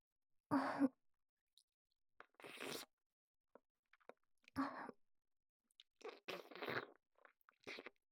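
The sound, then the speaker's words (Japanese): Water being drunk in small gulps, a few separate swallowing sounds spaced by quiet pauses, each short and soft with no talking. “では、もう一口飲みましょう。お水はちゃんと飲まないとダメですからね。”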